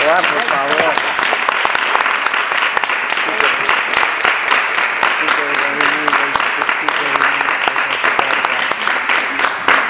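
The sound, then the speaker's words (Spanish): Audience applause after a Spanish-language talk about gatekeeping: dense, steady clapping from many hands fills the whole stretch at an even loudness, with murmured voices faintly mixed in beneath it. “Un aplauso, ¿no?”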